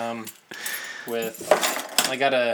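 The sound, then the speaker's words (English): A can opener scrapes and clicks against metal while cutting down the wax seal on a beer bottle, with sharp bursts of scraping under steady conversation. “How much wax is on here? Sometimes you gotta kind of cut the wax down. Yeah.”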